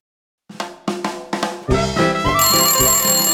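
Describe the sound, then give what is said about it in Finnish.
A phone ringtone: a few quick, plucked bell-like notes step in one after another, then give way to a sustained, brighter ringing chord that holds to the end, with no talk over it. “No mutta, mikä se tuolla pirisee? Menenpäs vastaamaan.”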